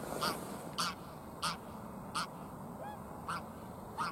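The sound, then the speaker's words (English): Greylag geese calling at Curonian Spit National Park: a series of short, evenly spaced nasal honks, fairly faint over a soft background hiss. “Here is some examples of bird sounds: greylag geese,”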